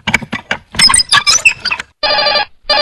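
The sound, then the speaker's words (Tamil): A telephone rings inside a house with bright, buzzing electronic bursts: one full ring, then a second ring that is cut off at the end. Busy, squeaky sounds come before the rings. “அட, இது என்ன phone அடிக்குது வீட்டுக்குள்ள?”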